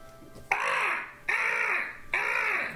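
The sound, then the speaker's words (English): An Arctic gull calls loudly: three harsh, raspy squawks, evenly spaced, each starting abruptly and trailing off, with nothing else around them. “as Anga, the vulture, who when I summoned back came back as a very loud, annoying Arctic gull”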